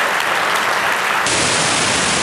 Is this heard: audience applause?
yes